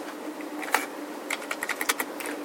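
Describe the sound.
Code being typed on a computer keyboard: a quiet, quick burst of several crisp keystrokes in an uneven rhythm, with no voices over them.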